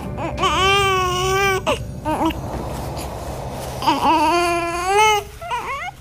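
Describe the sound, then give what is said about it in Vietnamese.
A baby crying in loud, high, wavering wails, with two long cries separated by a brief, noisier pause, then shorter broken sobs at the end. “đứa bé đang khóc đó. Ôi trời, sao lại khóc như vậy hả bé con?”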